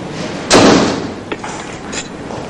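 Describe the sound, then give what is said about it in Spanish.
A door being shut in a station café with tiled walls: one solid thud lands about halfway in, over a steady wash of background noise, with a faint knock shortly after. “cierra la puerta.”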